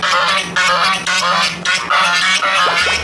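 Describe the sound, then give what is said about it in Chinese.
A guard goose at a home honks loudly and harshly, giving several brassy honks in quick succession that nearly fill the stretch. “这个是看门鹅吗？”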